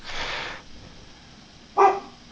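A dog barks twice with a pause between, and the second bark is short and sharp.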